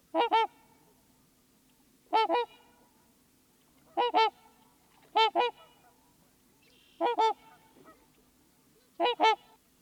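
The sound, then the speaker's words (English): A pair of trumpeter swans calls in deep, brassy trumpeting honks, six short bursts of paired notes spaced a second or two apart, loud against otherwise quiet surroundings. “So those were the characteristic deep trumpetings, call of a pair of trumpeter swans.”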